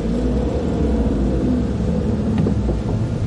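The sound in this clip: A car creeps forward a few metres in a line of cars, giving a steady low engine rumble with no clear revving, continuous and fairly loud throughout with no voices.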